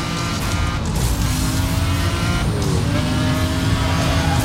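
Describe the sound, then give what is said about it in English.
A McLaren F1 race car engine in a racing video game: a loud, continuous high-revving drone with bright harmonic lines that sweep slightly as the revs shift, steady throughout without pauses. “I forgot what I'm even driving in this race. Oh, that's a McLaren F1.”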